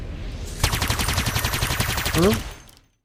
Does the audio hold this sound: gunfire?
yes

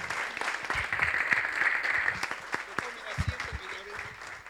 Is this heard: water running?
no

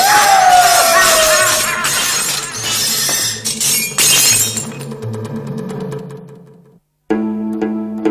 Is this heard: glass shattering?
yes

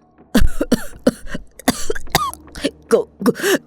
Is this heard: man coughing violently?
yes

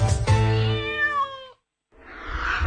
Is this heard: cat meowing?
yes

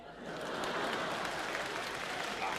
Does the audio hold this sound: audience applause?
yes

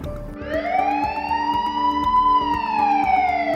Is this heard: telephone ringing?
no

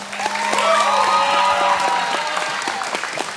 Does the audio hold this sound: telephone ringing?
no

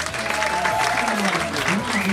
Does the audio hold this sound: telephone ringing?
no

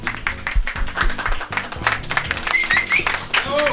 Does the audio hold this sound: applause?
yes

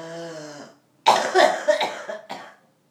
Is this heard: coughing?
yes

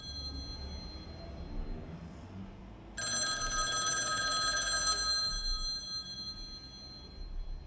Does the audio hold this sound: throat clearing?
no

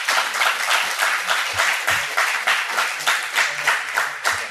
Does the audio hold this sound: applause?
yes

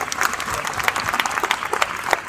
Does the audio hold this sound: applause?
yes

